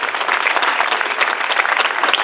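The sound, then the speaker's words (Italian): Audience applause greets a list of people being named at an event. The clapping is dense and steady and stays loud and even for the whole short stretch. “Salutiamo tutti con un applauso”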